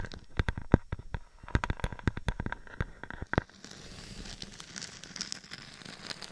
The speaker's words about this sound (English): Those are nails going across.